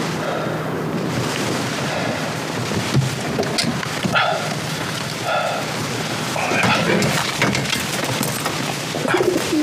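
Caged messenger pigeons make soft, scattered coos under a steady, hissing wash of background noise. The calls are faint and intermittent throughout.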